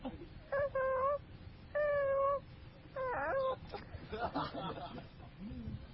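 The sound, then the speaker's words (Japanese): Mock dinosaur cries made up of three drawn-out, warbling, meow-like calls, followed by choppier, rougher cries, moderately loud. “謎の恐竜の鳴き声。”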